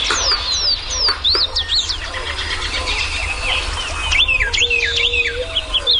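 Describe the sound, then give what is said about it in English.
Many birds sing in early spring as they return and set up territories. Bright, quick chirps and whistled phrases repeat and overlap over a low, steady background rumble. “the serenade of birds early in the spring when birds are first returning and begin setting up territories is as good or better than any place I've heard anywhere in the country. It's just spectacular.”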